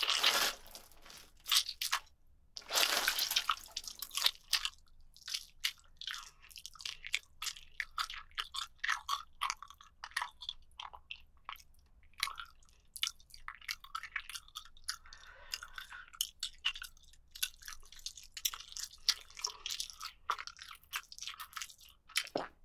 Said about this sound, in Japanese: ももの表と裏、どっちから食べるか悩んじゃう。